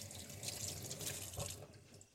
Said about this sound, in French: Je vais laver mes poivrons. Je les rince à l'eau claire.